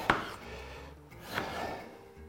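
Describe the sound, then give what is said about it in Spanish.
Knife cutting potato while preparing food, with two distinct cutting knocks separated by soft scraping, moderately faint. “Mira, vamos a cortar así.”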